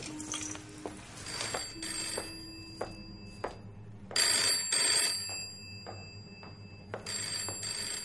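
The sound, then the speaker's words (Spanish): A telephone rings in a room in several bright, repeated bursts separated by pauses, with faint clicks and movement between rings and no voices. “El teléfono está en la habitación donde está Kaplan y lo mira asustado.”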